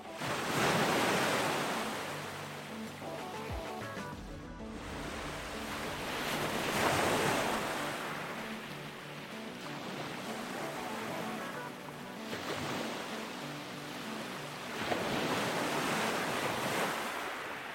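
Ocean waves at a beach roll in as broad, loud washes of surf that swell and recede several times, with a steady rush of wind between the surges.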